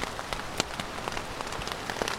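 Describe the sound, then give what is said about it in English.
Rain falling on a tent at a campsite in the 100 Mile Wilderness just before 7 a.m., a steady, dense patter of many drops with sharper taps scattered throughout and no voices. “here I am in my tent. It's September 20th, a little bit before 7 a.m. And the rain is coming down.”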